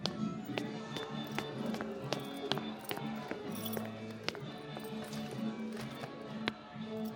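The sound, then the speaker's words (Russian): Footsteps climb the stairs of an apartment stairwell: many steady, evenly spaced taps keep a regular walking rhythm over a low background hum. “Задолжавший поднимается по лестнице в подъезде.”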